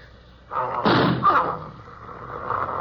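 A single loud gunshot bursts out with a heavy boom, and its rough tail lingers and slowly fades.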